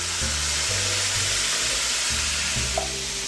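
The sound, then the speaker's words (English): Beans and their liquid are stirred in a pot with a bay leaf, a steady soft wet hiss with faint bubbling that runs through the whole clip without speech. “And I'm just giving everything a stir to make sure it's evenly incorporated.”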